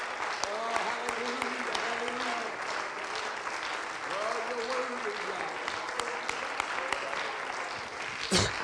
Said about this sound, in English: Can we clap our hands one more time? Come on, let's let God know he's worthy in the house of the Lord tonight.